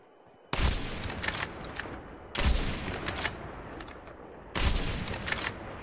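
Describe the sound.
Gunfire in a video game comes in three sustained bursts of rapid, loud shots, each starting abruptly and running on for well over a second. No voices are heard.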